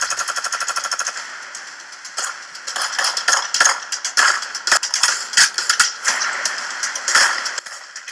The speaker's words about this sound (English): Did you guys have to shoot him so many times? Yeah, that was overkill.